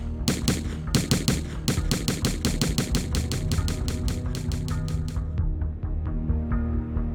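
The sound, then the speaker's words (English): Rapid gunfire from a Bushmaster semi-automatic rifle during an elementary school shooting, captured on an emergency call recording: many sharp shots fire in quick succession for about five seconds, then a few scattered shots follow as it tapers off. “They're still running. They're still shooting.”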